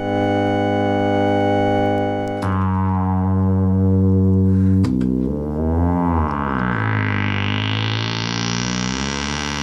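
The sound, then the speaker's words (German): Electronic chord of simultaneous synthesized tones from electronic music: a sustained stack of tones shifts to a new chord twice, then a bright, buzzing layer sweeps steadily upward in pitch toward the end, loud throughout. “und der Zusammenklang.”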